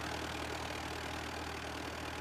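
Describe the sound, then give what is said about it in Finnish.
An old Ford Model T engine idles in front of a museum, giving a steady, faint low rumble and hum that stays even throughout. “Museon edessä odottaa se T-Ford, että lähdenkö kyytiin.”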